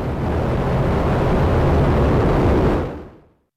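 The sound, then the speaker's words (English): The first United Launch Alliance Vulcan rocket launches with a loud, broad rumbling roar that holds steadily for about three seconds before fading out. “Five, four, three, we have ignition. Hopes were so high. The first United Launch Alliance Vulcan rocket.”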